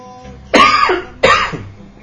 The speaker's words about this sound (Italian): Così avete anche capito che ho la tosse.